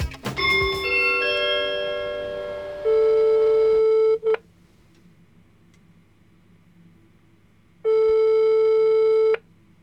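Telephone ringback tone while calling someone: two long, steady electronic tones separated by a few seconds of quiet, the first preceded by a brief musical jingle.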